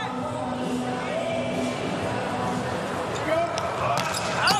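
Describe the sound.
Ball strikes during a USA volleyball match serve, a few sharp hits and bounces over a steady arena crowd roar, with voices talking throughout and brief whistle-like tones near the end.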